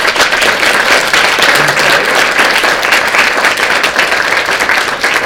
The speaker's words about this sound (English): I just want to applaud everybody on this panel for an amazing